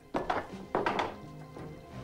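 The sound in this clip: Bowls are set down on a table in a motel kitchen, giving a few dull, moderately loud thunks spaced apart, each with a short knocking tail and no voices.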